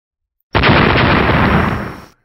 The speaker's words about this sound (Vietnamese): Hai tiếng nổ mạnh, khi cái nắm đấm khổng lồ của Kim Mao cự viên